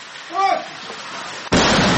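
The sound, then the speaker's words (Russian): Mortar fire during an assault near the road to Bakhmut by the village of Ivanovskoye. A brief voice-like sound comes first, then a sudden loud blast bursts in near the end and keeps roaring. “Выстрел за выстрелом. Минометы не успевают остывать.”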